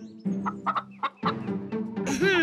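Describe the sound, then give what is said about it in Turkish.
Chickens cluck while being fed seed, giving a quick series of short, nasal clucks in an uneven rhythm, with no talk, and ending in a higher, drawn-out squawk that rises in pitch. “Şimdi tavukları besleyelim.”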